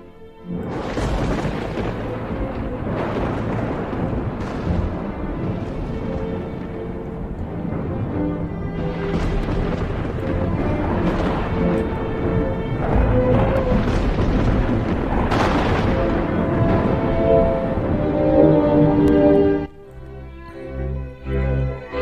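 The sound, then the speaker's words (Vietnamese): Loud dry thunder cracks out of hot weather with no rain, a continuous heavy rumble that roars for about twenty seconds before cutting off abruptly. “bỗng nhiên nổ sấm khan. Tiếng sấm nghe đinh tai nhức óc, như là oán hận cái gì.”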